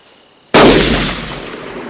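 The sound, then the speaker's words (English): A gunshot fired in a clearing about 50 yards off cracks out as one sudden, loud report after near silence. The blast leaves a long rumbling tail that fades slowly. “What the hell's he shooting at over there?”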